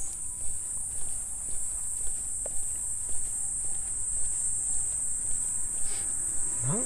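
A cicada chirrs at night in a continuous, high, steady buzz that holds unbroken throughout, with soft regular footsteps faintly beneath it.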